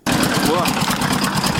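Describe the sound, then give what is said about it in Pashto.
An old 14-horsepower generator runs with a steady, loud, unbroken engine drone that starts abruptly and holds level throughout. “برېښنا نشته خو یو زوړ 14 هسپاور جنراتور چالانه دی”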